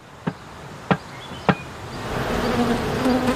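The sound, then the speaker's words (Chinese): Honeybees buzzing around a hive box set on a sunny cliff face sheltered from rain, a steady droning hum that thickens in the second half, with three short sharp taps early on. “四个月前放置在这里的一个蜂箱，蜜蜂已经在里面安了家。”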